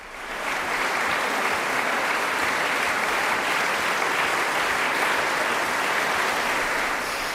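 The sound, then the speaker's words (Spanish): Ovation from a concert audience after a Schubert recital by a young duo in the Sala Angélica Kauffmann. Rapid, dense clapping rises in the first half-second, then holds as a steady, loud, unbroken roar with no voices. “Estamos escuchando las ovaciones del público a este dúo que, pese a su juventud, es uno de los más aclamados del momento, especialmente en el repertorio de Schubert.”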